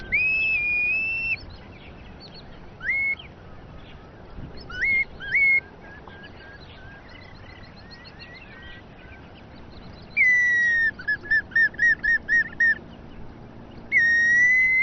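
A bamboo whistle, sounded alongside decoy birds and a net to lure passing birds, gives clear, high bird-like calls: a long sliding note, scattered short chirps, then a rapid trill of repeated notes and one more note at the end, over steady background noise.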